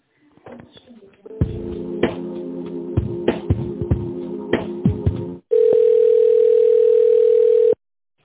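Telephone line tones while a call is being transferred: a run of buzzy, pulsing tones, then a loud, steady single tone that holds for about two seconds and cuts off.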